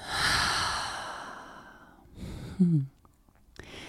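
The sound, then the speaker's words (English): A deep breath taken in and let out: a long, loud, airy rush of breath that slowly fades, then a shorter breath and a brief low voiced snort-like sound. “Go ahead and inhale all the way in. And let it out.”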